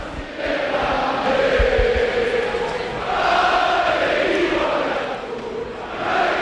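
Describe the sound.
Stadium crowd at Mendizorroza in Vitoria celebrating a 1-0 football victory over Barcelona: a sustained, loud roar of many voices with chant-like tones rising out of it, swelling around the middle and again at the end.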